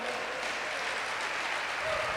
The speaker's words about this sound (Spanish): ¿Cuántos atreven a darle un fuerte aplauso al Señor?